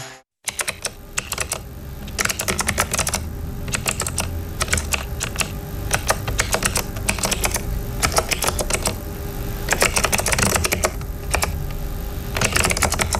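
Typing on a computer keyboard: many quick key clicks in irregular bursts, with brief pauses between runs. The typing is steady and moderately loud for nearly the whole clip, with no voices.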